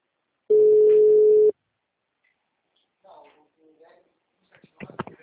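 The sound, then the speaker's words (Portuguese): A telephone busy tone after a dropped call sounds as a single steady, mid-pitched tone lasting about a second, followed by silence and then faint voices talking. “Caiu a ligação. É, ficou muito ruim.”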